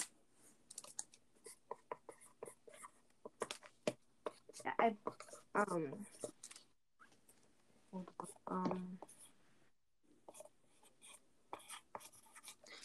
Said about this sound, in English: I think I finished the drawing.